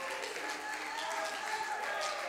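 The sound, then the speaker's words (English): A church audience claps along during a lively service about miracles: a steady, dense wash of hand clapping runs through the whole moment, with crowd voices mixed in. “Somebody ought to clap your hands in this house tonight and shout, my God is a God of miracles.”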